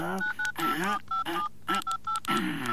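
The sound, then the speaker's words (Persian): Telephone keypad tones beep as a number is dialed: several short, steady tones with gaps between them, interleaved with people talking. “زنگ بزن دیگه، زنگ بزن. این زنگ میزنم، صبر کو.”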